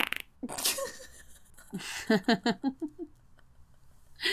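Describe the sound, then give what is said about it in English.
A fart: a couple of soft, rough noises, then a quick run of short, buzzy sputtering pulses that taper off, followed by a faint hiss at the end. “I'm going to toot again.”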